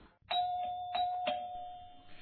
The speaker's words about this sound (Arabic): وفعلا وبعد دقائق من الموعد سمع الكل جرس الباب يطرق.